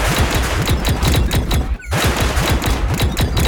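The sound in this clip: Gunfire erupts during an attack: many rapid, loud shots crack in a continuous fusillade, with a brief break partway through before the rapid firing resumes.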